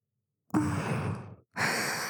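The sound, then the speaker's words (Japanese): Soft breathy blowing into an ear to clean it, done as gentle pampering. Two long airy puffs of breath are separated by a short silent pause, with no talk. “ご主人様のお耳の汚れを取るためにふうふうしてるんですから。”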